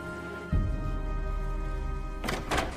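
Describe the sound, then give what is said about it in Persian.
A door being shut lands as a dull, low thump early on, and a brighter, broader burst of noise follows near the end, both over a steady droning tone. “باش درم پشت سرت ببند.”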